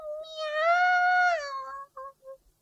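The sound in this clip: A kitten meowing plaintively for food: one long, high, drawn-out meow that swells and then fades, followed by a few short, fainter mews.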